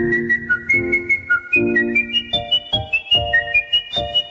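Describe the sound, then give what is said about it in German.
Artistic whistling of Mozart's Queen of the Night aria by a Viennese competition whistler: bright held notes give way to rapid staccato runs climbing higher, over lower accompanying chords. “Ja, der Mann hat Übung. Der Kunstpfeifer aus Wien mit der Königin der Nacht.”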